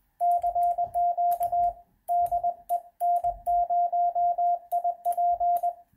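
Morse code sent at 20 words per minute from an electronic keyer: a steady mid-pitched tone keyed in quick dots and dashes, grouped into bursts with short silent gaps between characters and words.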